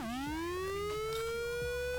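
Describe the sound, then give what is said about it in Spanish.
An emergency siren wails as one loud, sustained tone that climbs quickly at the start and then keeps rising slowly. It sounds alone, with no voices. “Sirena de emergencia.”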